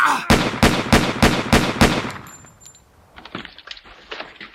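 Gunshots during a tense confrontation: six sharp, loud bangs in rapid, evenly spaced succession, followed by fainter scattered clicks and knocks.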